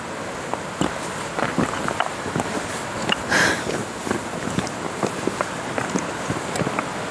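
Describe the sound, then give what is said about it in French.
Footsteps of someone walking outdoors on clay ground, a steady series of many soft crunching steps over a faint breezy hiss. “Marcher, marcher, marcher, marcher, marcher, marcher, marcher.”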